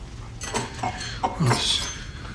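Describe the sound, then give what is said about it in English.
A knife and fork are handled at a meal, giving a few light, bright clinks of cutlery against a plate, spaced out and fairly quiet, with a brief voice among them. “Caleb picks up his knife and fork.”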